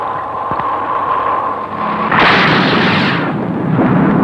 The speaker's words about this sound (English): Firing Sting Missile 1, Force 5. Firing Sting Missile 2, Force 10.